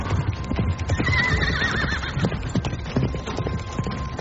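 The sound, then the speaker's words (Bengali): Horse hooves galloping in the dark: rapid, steady hoofbeats run throughout, with a loud whinny rising and falling near the start. “অন্ধকারে শুধু ঘোড়ার পায়ের শব্দ শুনে শুনে রায়মল্ল এগিয়ে চললেন।”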